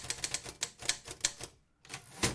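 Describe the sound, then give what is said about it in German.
Typing on the original typewriter of bestselling author Hedwig Courths-Mahler, kept in her archive in Nebra: a quick, uneven run of sharp key strikes, a brief pause, then more clacking strikes. “Im Hedwig Kurzmaler Archiv in Nebra steht heute die Originalschreibmaschine der Bestsellerautorin.”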